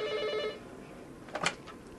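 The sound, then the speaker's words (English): A telephone rings in an office, a short harmonic electronic trill at the start that soon cuts off, fairly faint over a quiet background. “And now her BlackBerry chirps or the phone rings every few minutes.”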